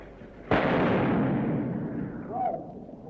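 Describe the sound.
A pistol shot in street fighting: one sudden, loud crack followed by a long, rumbling, slowly fading decay, with a faint whining tone near the end.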